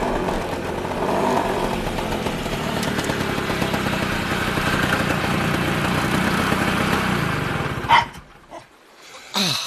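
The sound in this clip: A scooter engine runs loudly and steadily with a passenger riding behind, a continuous rough drone that cuts off abruptly near the end.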